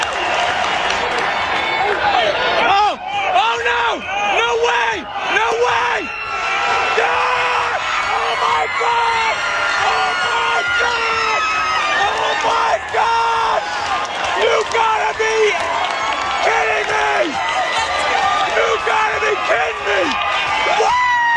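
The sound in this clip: A father yelling and whooping in celebration of a leadoff home run at a World Series baseball game at Dodger Stadium: a loud, sustained cheering voice over steady crowd noise.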